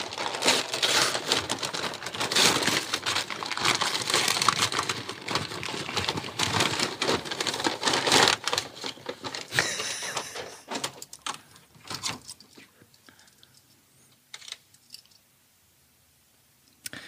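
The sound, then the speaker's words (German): Wrapping paper crinkles and tears as a gift, a barbecue branding iron, is unwrapped. The rustling is dense and continuous for about ten seconds, then thins into scattered crackles and soft rustles before falling almost silent. “Lass uns jetzt eine Stunde das Geschenk auspacken. Ja, ich mache ja schnell.”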